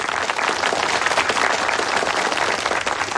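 Applause from an audience welcoming a newly appointed brigade leader, a dense, steady wash of clapping that holds for the whole clip.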